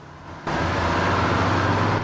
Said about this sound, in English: As the coach heads on its way